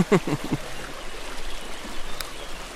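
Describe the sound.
The river Vienne flows at a bathing spot with a fine-sand beach, giving a soft, steady rush of water. A few low, splashy knocks come at the very start.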